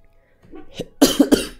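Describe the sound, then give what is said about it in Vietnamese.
A person coughs three times in quick succession. The loud, harsh bursts follow a few quieter throat and breath sounds. “Cố gắng nhịn ho, đọc nó có bị ngắt thì anh em thông cảm nhé.”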